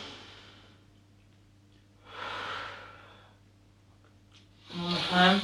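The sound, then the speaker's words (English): Deep, slow breathing during a guided breathing exercise: airy exhaled breath at the start, then a long in-and-out breath in the middle. A voice begins speaking at the end. “take a deep breath. Breathe in. And then out. And then breathe in.”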